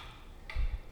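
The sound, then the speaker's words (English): Faint ticking of a wall clock, a couple of evenly spaced soft ticks over a low background hum. “We are about to remove the clock from the wall and pack it up, which means the ticking is about to stop.”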